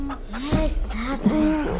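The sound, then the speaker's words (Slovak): A chicken clucks in a few short, throaty calls with wavering pitch, close and moderately loud, over a low steady background. “Toto tu od rána, kotkodáka.”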